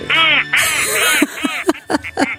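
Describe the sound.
Duck quacking in a radio studio: a run of loud, nasal, buzzy quacks, the first few longer and close together, then several short clipped bursts spaced out toward the end.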